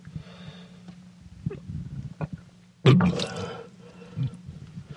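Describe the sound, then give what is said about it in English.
Vomiting into a sink after a heavy dinner of soup: quiet drips and wheezy breaths, then a sudden loud, wet heave and splash, followed by smaller splutters. “And there goes my dinner. Back into the sink.”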